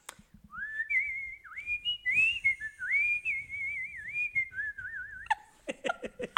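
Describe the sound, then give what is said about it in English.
A person whistles a melodic tune with a marked, wavering vibrato, sustaining mid-pitched notes for about five seconds before a few short, choppy sounds at the end. “and I have like vibrato in my whistle. That wasn't even good because I'm smiling too much.”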